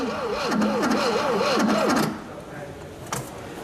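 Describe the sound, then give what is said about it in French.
A car engine cranks but fails to catch, with fuel just reaching it: a wavering starter whir rises and falls in quick regular cycles for about two seconds, then drops to a quieter rumble. “Il démarrera jamais. Bon, d'accord, il a un peu tourné. Après un tout sautement encourageant, le moteur refuse de tourner.”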